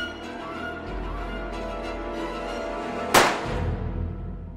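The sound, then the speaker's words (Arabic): A single abrupt gunshot from a large, cannon-like gun cracks out loud and bright over a steady low musical drone. A short decaying tail follows before the drone carries on. “طلقة واحدة مختصرة جدا، كل هذا المدفع من أجل طلقة تافهة كهذه؟”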